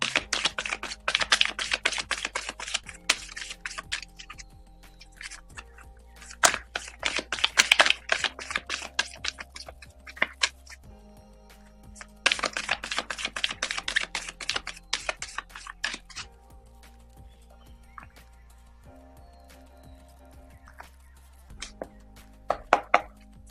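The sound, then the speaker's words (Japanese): Tarot cards are shuffled for a reading in several bursts of rapid, crisp crackling and riffling, separated by quieter stretches of light ticking and handling. “それでは今日のカードリーディング始めていきましょう。カードをシャッフルいたします。少々お待ちください。”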